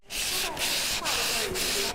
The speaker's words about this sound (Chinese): 在新建村乡村艺术馆，八位村民围坐在长桌旁，正在制作非遗大漆葫芦的首道环节，打磨葫芦胎体，要用砂纸一点点磨掉葫芦的棱角和毛刺